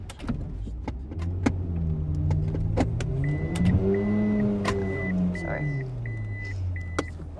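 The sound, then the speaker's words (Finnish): A car is driven around a corner and parked. Its engine drone rises and then falls in pitch, sharp clicks sound throughout, and six short, evenly spaced electronic beeps sound midway through the manoeuvre. “Ajamme auton kulman taakse. Teen elämäni huonoimman parkkeerauksen.”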